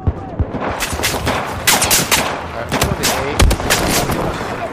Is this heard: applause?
no